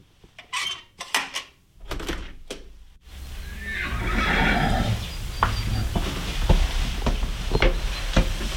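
Hungry horses whinny from their stalls in an early-morning stable in Köniz. A few loud, separate neighs come in the first three seconds, followed by a steady stable hum with scattered sharp knocks and clatter.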